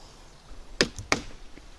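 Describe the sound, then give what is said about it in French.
Firewood is split by hand before cooking on a wood-fire kitchen stove: two sharp, loud cracking blows land about a third of a second apart, with a fainter knock between them. “Donc avant de cuisiner, il y a toujours une petite séance de fendage de bois. Donc voilà, on tape, on cogne.”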